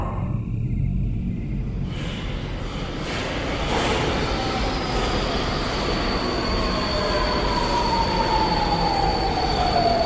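A subway train moves through a metro station with deep, continuous rumble and wheel noise. A high, thin wheel squeal enters partway through and slowly falls in pitch while the loud clatter carries on.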